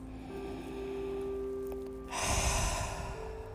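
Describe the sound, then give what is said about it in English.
A deep breath drawn in makes a breathy rush of air that starts partway through and swells for over a second, over a soft, steady drone. “Breathe. See the breath as it enters your lungs and fills the abdominal cavity.”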